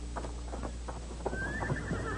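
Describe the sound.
Hoofbeats of horses being ridden off toward a fort, a faint, rhythmic clip-clop of several quick steps over a steady low background hum.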